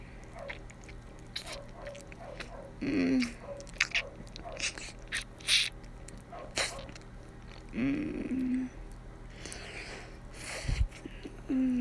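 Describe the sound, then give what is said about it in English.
Wet sucking and licking mouth sounds come as soft, intermittent slurps and smacks in irregular bursts, broken by a few brief vocal sounds over a quiet background. “I start sucking and playing with your asshole, getting it nice and wet.”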